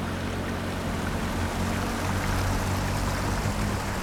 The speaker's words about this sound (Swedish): Det är en ganska fin ström.